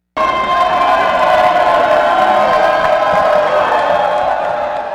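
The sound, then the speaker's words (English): Crowd noise from almost 120 coaches in matching red shirts and sunglasses marching up Wilshire Boulevard in afternoon sun, a steady loud wash of shouting and whooping that starts abruptly and holds for five seconds. “That's the sound of almost 120 coaches walking up Wilshire Boulevard in the bright afternoon sun.”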